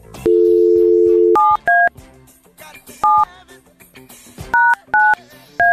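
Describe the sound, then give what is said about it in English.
A telephone number is dialed on a keypad: a steady dial tone plays for about a second, then six short two-tone keypad beeps follow at irregular intervals. “Maybe I have to dial it again. Hold on. Let me try it one more time.”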